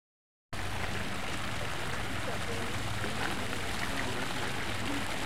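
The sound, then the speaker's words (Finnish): Water splashing in a garden fountain in a pond with goldfish: a steady, even hiss of falling spray that begins after a brief silence and continues unchanged to the end. “Suihkulähde. Tuolla oli kultakaloja.”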